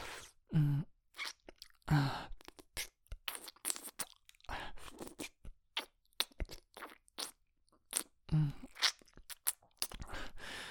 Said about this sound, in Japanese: 君の栗おいしい。